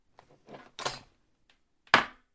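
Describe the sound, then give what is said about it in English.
A judge's gavel knocks a few times, soft wooden taps at first, then one sharper, louder rap standing alone in near silence. “I thought my gavel was within reach. Well, since you're a judge, if you knock, it counts.”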